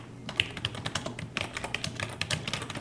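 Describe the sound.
Typing on a computer keyboard while writing an internal report in an office: many quick, irregular key clicks, moderately loud, with brief pauses between bursts and no talking.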